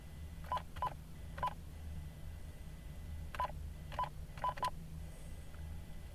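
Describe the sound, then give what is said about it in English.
Seven touch-tone beeps sound as a phone number is dialled for an interview, in a group of three and then a group of four. Each beep is short and clear over a faint low hum. “I'm just going to jump right into the moment when I dial his number for this interview.”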